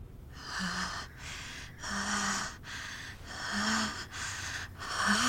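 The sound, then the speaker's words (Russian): Heavy, rasping breathing from a boy leaning over a sleeping baby's cradle: a steady run of loud, breathy inhales and exhales, some with short voiced, grunting edges, and no speech. “Тяжело дыша, Кунтян протягивает руки к девочке.”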